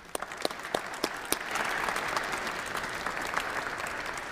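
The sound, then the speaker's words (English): Applause from a church audience welcoming a priest to speak begins as a few separate, sharp claps, then swells into a full, steady round of clapping that carries through to the end. “So let's please give a nice hand and welcome Father Anthony Wick.”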